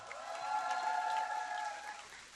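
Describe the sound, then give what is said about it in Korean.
Audience applause after a song performance at a birthday celebration, a steady, fairly faint wash of clapping that holds without break for the whole stretch. “아, 이 박수 기분이 왜 이렇게 좋지?”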